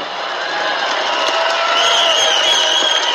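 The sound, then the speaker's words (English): A crowd of thousands at a political rally cheering in a sustained, loud roar, with whoops and shouts rising out of the mass of voices and the noise swelling slightly toward the end. “You know, I'd love if the cameras could show this crowd, because it is rather incredible.”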